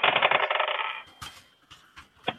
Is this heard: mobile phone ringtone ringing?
no